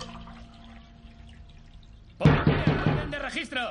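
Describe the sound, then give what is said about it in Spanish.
Coffee being poured into a cup at home: after a near-silent stretch, a sudden, fairly loud splashing pour of liquid begins and runs steadily to the end. “En casa, Mike se sirve un café.”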